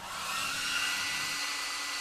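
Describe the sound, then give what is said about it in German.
A hair dryer blows in a bathroom, a steady, airy, hissing rush of air that runs without a break at an even, fairly quiet level. “Ach nee, er föhnt.”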